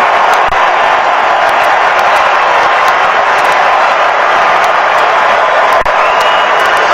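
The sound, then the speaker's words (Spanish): Stadium crowd in Miami erupting as Neymar enters a Brazil football match. The roar of cheering and shouting from thousands of voices is loud and unbroken for the full seven seconds. “Así lo recibe el público de Miami, se va Mateo Cunha. Explota el estadio con Neymar en la cancha.”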